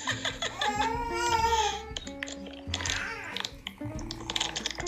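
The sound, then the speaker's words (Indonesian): A baby cries in the background, with high, wavering voiced wails and babbling sounds that rise and fall unevenly. “sorry maaf bun nih barusan adik nangis nih”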